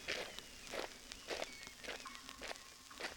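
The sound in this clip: Footsteps walking into a cave, six evenly spaced, soft gritty steps at a slow walking pace, with faint tones lingering in the background.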